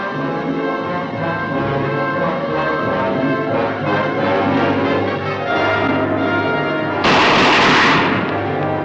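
Gunfire aimed at a monster in a film: rapid shots sound under a sustained musical score, and the passage ends in a loud, noisy burst.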